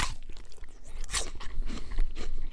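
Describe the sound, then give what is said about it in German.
Crunching bites into a red, tart Braeburn apple, slightly shrivelled with the season, a dense run of crisp cracks and wet munching with no voices. “Lecker. Ein Braeburn, rot und säuerlich und um diese Jahreszeit auch ein wenig angeschrumpelt.”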